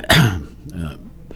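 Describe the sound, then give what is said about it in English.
Coughing with throat clearing, one loud harsh burst followed by a softer rasping cough and a faint last catch, brief and heard alone. “forgive me for my coughs this morning. It's nothing bad, though.”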